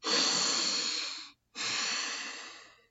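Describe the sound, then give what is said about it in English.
Deep, full breathing through the nose, heard as two long, airy rushes of breath with a brief silent pause between them. It is fairly soft and stands alone. “That's a big, full, deep breath. Through your nose, it's very different.”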